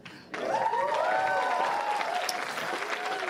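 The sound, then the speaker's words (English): An audience applauds after a magic trick at a live magic comedy show. After a brief quieter moment, clapping bursts in and holds steady and loud, with cheering and shouting voices rising over it. “I hate to interrupt this whole, applause you're getting for your phenomenal performance.”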